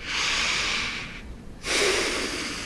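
Deep breaths taken during a physical exam: a long, loud, airy breath lasting about a second, a short quiet gap, then a second strong breath. There is no talk.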